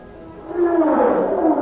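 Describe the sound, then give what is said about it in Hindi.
A lion roars as it attacks a deer. A low rumble swells into a loud, sustained, throaty bellow whose tone sinks slowly toward the end. “एक खौफनाक चीख के साथ शेर ने एक हिरन पर हमला कर दिया।”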